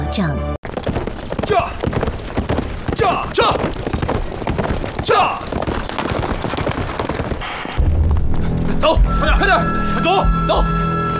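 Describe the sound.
Galloping horse hooves as riders flee on horseback, a loud, fast run of many clip-clop beats with voices mixed in.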